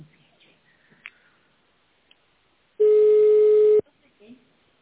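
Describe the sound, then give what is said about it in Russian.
A telephone call being transferred to a secretary, marked by a single loud, steady electronic tone lasting about a second amid near silence. “Ваш звонок переводится на секретаря. Давай переводи уже.”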